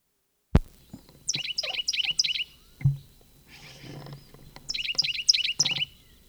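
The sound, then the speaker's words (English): A bird chirps inside a barn, giving two bursts of rapid, high-pitched twittering notes separated by a quieter gap. A sharp knock comes before the first burst and a duller thump falls between them. “Bird flew into the barn.”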